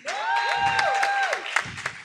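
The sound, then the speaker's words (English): Audience clapping at an event as people are introduced and walk in: a steady run of rhythmic claps beneath loud, sustained voices cheering over the top for the whole stretch. “You guys keep clapping until they get here. Don't get tired.”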